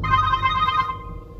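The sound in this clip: An incoming-call ringtone on a phone plays a bright, steady warbling tone pattern for most of a second, then cuts off, leaving low background noise.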